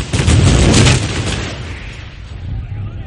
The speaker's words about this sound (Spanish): Batería de estribor. ¡Fuego!